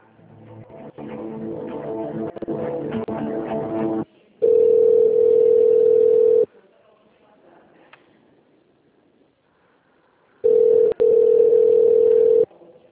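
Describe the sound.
A steady telephone line tone plays while a call is being transferred. Two long, flat, even tones of about two seconds each are separated by near silence, and a denser, noisier stretch of sound comes before them.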